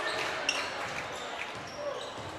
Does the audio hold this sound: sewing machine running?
no